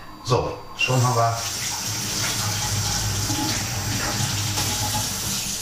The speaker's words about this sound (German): Meine Hände abspülen.